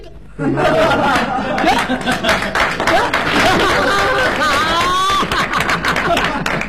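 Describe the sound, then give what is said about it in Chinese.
Audience applause at a crosstalk comedy show. Scattered claps run throughout, mixed with chuckles, laughter and people talking over them. “哎呀，连我都鼓掌。 哎， 有本事， 那是， 各位还真捧你，还真鼓掌。”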